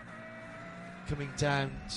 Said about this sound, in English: Number 900, Porsche 911 GT3 Cup car is the noise you can hear